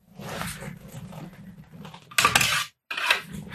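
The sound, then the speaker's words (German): Trouser hangers clink and rattle as trousers are taken from a wardrobe: soft rustling, then a sharp burst of metallic clatter, a brief silence and a second clatter. “Er holt seine Hose aus dem Schrank.”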